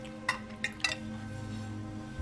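Dishes clink in a kitchen as they are dried, with three light, bright clinks close together early on, then a quiet hum.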